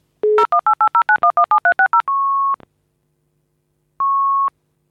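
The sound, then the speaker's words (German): A voicemail signal tone: a rapid string of telephone dialing tones at changing pitches, then a loud, steady single-pitched beep. After a pause a second, matching beep sounds. “Bitte hinterlassen Sie eine Nachricht nach dem Signalton.”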